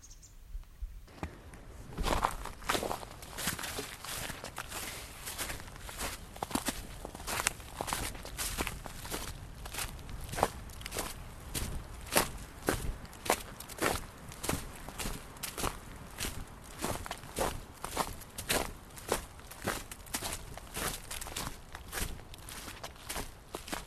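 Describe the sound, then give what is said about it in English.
Footsteps on a walk in the woods: many regular, crunchy treads that keep a steady walking pace throughout, fairly quiet, with no voices. “let's take a woodsy walk.”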